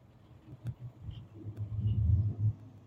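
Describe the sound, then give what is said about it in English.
A low engine rumble from a classic 1957 Chevy hot rod driving by, quiet at first, then swelling to a fuller, throaty drone in the second half before easing off at the end. “And here comes a classic hot rod. 57 Chevy.”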